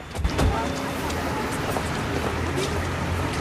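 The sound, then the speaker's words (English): A car engine rumbles steadily as the car is driven up onto a city pavement and parked, a continuous low drone with a slightly stronger burst near the start. “In the city, Regis drives his car up onto the pavement and parks.”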